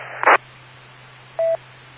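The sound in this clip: Two short cell phone keypad tones, pressed while opening a calculator app. The first is brief and bright, the second a clean steady beep about a second later, both over a faint constant hum.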